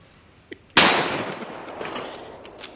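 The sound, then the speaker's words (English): A gunshot at a shooting range cracks out loudly, followed by a long, gradually fading echoing tail; a faint sharp click comes just before it. “Good shot, sir. A substantial amount of time goes between the shots.”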